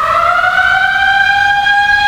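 A workplace siren signals the start of work at the machines, a loud continuous wail that holds a steady tone and climbs slightly in pitch throughout, heard alone.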